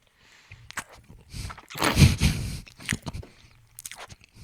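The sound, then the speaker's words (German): Close chewing of a leftover piece of cheesecake: moist mouth sounds and soft bites in several bursts, loudest in the middle. “Ist ein restliches Stück Käsekuchen drauf. Mach ich. Für dich. Ja, das waren meine drei Fragen, Wookie. Echt? Das waren schon drei Fragen. Mhm. Die waren lustig. Könnten mehr davon haben. Ich esse Käsekuchen.”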